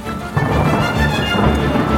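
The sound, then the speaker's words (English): Storm with thunder and heavy rain: a dense, loud roar of downpour over deep rolling rumbles that hold steady for the whole stretch, with no voices. “our roof has a leak. A storm is blowing in, little one.”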